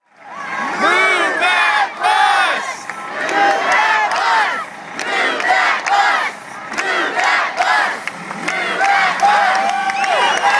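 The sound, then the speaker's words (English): A live audience shouting out suggestions all at once, a loud jumble of overlapping voices, whoops and cheers that swells and dips throughout. “So audience, please respond with shout out with what you guys want to see from us the most.”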